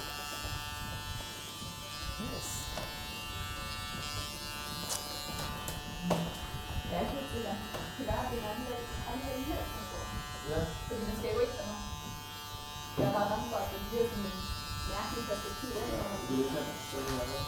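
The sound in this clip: A tattoo machine buzzes steadily at a tattoo studio, running harder and louder than before while large black areas are filled in, a continuous electric drone beneath people talking throughout.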